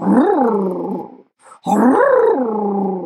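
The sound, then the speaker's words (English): A person vocally imitates a dog's small, throaty growl in two drawn-out, voiced bursts separated by a brief pause. Each burst is fairly loud and wavers in pitch. “And then he'd do this little, what we call his pigeon growl. He'd go,”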